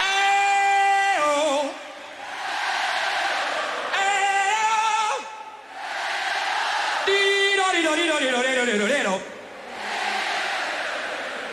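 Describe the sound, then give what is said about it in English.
At the 1985 Live Aid concert in Wembley Stadium, the stadium audience answers a singer's long held vocal phrases in call and response. Sung notes and loud massed crowd replies alternate over several exchanges. “does this call and response thing with the audience. Let's listen to this.”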